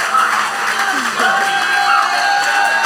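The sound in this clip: Applause and cheering welcome new church members as they walk forward during a service, with clapping, a few whoops and voices mixed together in a loud, lively burst lasting about three seconds.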